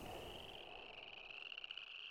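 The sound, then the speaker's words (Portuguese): A frog croaks with a faint, steady, high trilling call that pulses rapidly and carries on unbroken, with no other sounds. “Porque é que uma rã, de ventre redondo e úmido, canta livremente nos arrozais”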